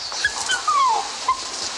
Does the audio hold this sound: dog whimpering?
yes